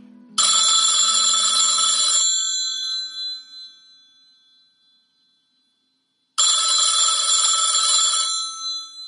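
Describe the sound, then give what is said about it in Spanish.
A telephone rings while a call is placed to a guest: two bright electronic ring bursts of about two seconds each, separated by a long stretch of silence. “Ali, mi arma, llama al chiquillo, llama. Venga, voy a llamarlo.”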